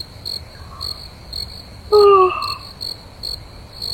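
Crickets chirp in high, regular pulses about every half second, steady and moderately loud, with one brief louder, lower-pitched call midway through.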